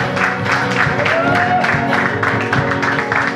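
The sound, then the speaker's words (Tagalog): At a church service in Antipolo City, the audience claps for the audience, a dense and loud wash of applause with crowd noise sustained throughout. “Can we give God the best clap for this people right now?”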